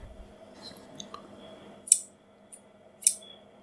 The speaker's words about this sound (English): Scissors. Whoa, that was the noise? Okay. There were scissors chopping. All metal shears.